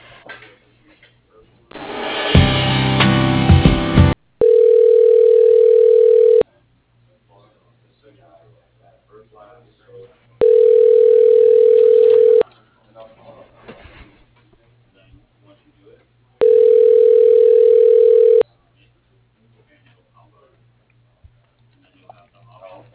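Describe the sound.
Ringback tone of a telephone ringing while a call is transferred: three long, even electronic rings with silent gaps between them, preceded by a short burst of rough noise.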